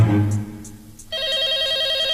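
A telephone rings with a warbling electronic trill that starts about a second in and continues steadily, loud and alone.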